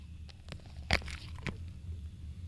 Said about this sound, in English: I have the lemon artistic display, and I'm going to take a bite out of it right now.